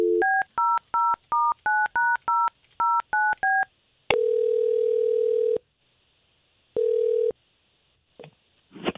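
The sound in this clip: Touch-tone telephone keypad dialing a number to place a call: about ten short, crisp dual-pitched beeps in a quick, uneven rhythm, then two long steady ringing tones with a gap between them, and a brief faint click at the end.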